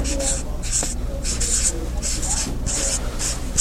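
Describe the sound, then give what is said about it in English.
Marker or chalk strokes on a board as the word 'prophet' is written: a series of short, bright, scratchy strokes in quick succession over a steady low hum. “I'd like for y'all to help me identify who we are. And if I write the word”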